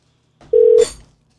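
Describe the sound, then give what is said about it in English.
A telephone call is placed to an attendance office in Colorado, one clear steady beep followed by a short burst of hiss that fades out. “We're going to make that call right now and show you exactly how to do that. So here we go. Let's see if we can't get that office on the line.”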